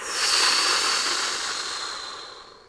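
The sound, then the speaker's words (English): A big breath in and a blowing breath out during a guided relaxation exercise, heard as one loud, airy rush of breath that slowly fades away, with no talking. “And with this last breath, we're coming all the way back in. Big inhale and blow.”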